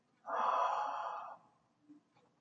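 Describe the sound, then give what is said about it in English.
A deep breath drawn in during a guided breathing exercise: one soft, airy inhale lasting about a second, fading into near silence with a faint trailing sound. “we take another deep breath in, one, two.”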